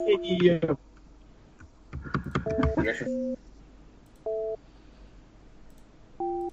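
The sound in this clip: Telephone call tones sound while a number is being dialed: a few short, steady two-note beeps spaced apart, the first ones overlapping people talking.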